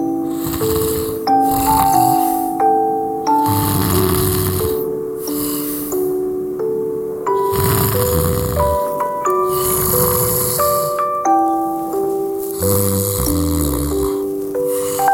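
Snoring while asleep: a few slow, regular, low rasping snores, roughly every four seconds, over soft melodic music.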